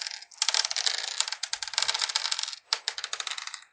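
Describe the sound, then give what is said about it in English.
Ten dice rattle and clatter as they are rolled for a tabletop role-playing game firearms check. A dense run of sharp clicks continues, pauses briefly, then resumes with scattered tumbling taps before settling. “So I get to roll 10 dice for my firearms.”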